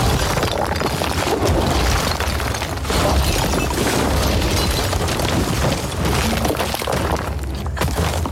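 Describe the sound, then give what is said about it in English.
Furniture is smashed in a loud, unbroken barrage of crashing and shattering that runs for the full eight seconds, dense and harsh with no clear gaps between impacts. “Throw away their beds. Smash the furniture.”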